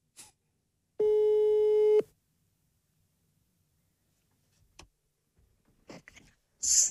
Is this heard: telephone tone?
yes